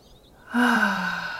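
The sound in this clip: A deep breath in is drawn during a guided visualization exercise. After a quiet start, a sudden airy intake rises with a faint voiced hum and holds steadily for about a second alone.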